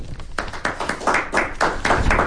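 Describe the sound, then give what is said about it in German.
Applause made of brisk, evenly spaced hand claps, many bright bursts in a steady rhythm, fairly loud and growing a little fuller after the first second. “Trotzdem kriegst du einen Applaus.”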